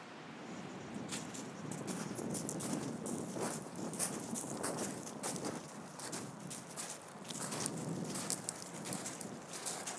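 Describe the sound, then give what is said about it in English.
Footsteps of a few people setting off walking together: many steady, crisp steps in an uneven rhythm, fairly quiet and continuing throughout with no talk. “We'll just nudge each other and start walking.”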